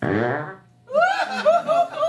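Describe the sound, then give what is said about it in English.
A goose fart: a loud, low, buzzy blast that fades out, followed after a short gap by bursts of laughter. “That was goose fart.”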